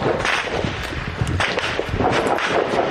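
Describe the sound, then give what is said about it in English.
Gunfire as Ukrainian troops shoot at a Russian drone overhead, a few sharp cracks buried in dense, steady rushing noise. “The Ukrainians open fire.”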